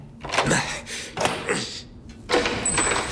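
The front entrance door being opened, with a few clustered thuds and rattles of wood and hardware, separated by short pauses.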